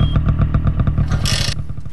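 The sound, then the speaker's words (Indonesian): A motorcycle arriving, its engine giving a rough, rumbling throb with rapid clattering pulses, plus a brief burst of hiss midway. “itu macam bunyi motor.”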